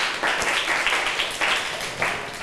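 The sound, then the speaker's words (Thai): Students in a classroom clap for a classmate who answered correctly: a short burst of brisk, dense applause that swells a few times at a moderate level. “นักเรียนปรบมือให้เพื่อนหน่อยค่ะ”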